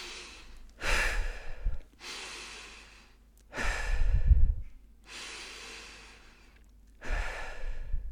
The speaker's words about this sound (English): You can also take 3 deep breaths before you eat.